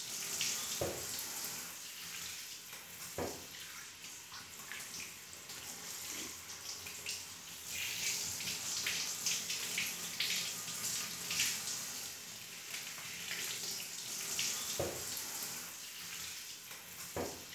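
Warm water runs steadily while a customer's hair is washed, a continuous, fairly quiet hiss broken by a few soft splashes and knocks.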